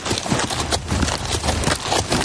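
Horse hooves clip-clop in a steady, even rhythm as a rider travels through the countryside in a 2012 period drama, a moderately loud patter of hoofbeats with no voices.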